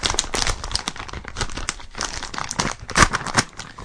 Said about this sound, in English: Let's get to the popcorn here. Forget all this sharing crap. How do we open this up here? Rip it. How do we open it?